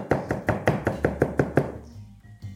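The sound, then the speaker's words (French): Chopping a shallot with a large knife on a cutting board, the blade tip resting on the board while the blade rocks: a quick, even run of crisp chops that fade, then a pause and one last tap. “il vaut mieux prendre un grand couteau si c'est le cas. Et là, vous allez hacher comme ça votre échalote.”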